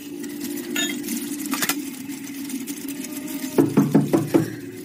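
Knocking on a door: a quick series of sharp raps near the end, after a steady low hum with faint clinks and rattles.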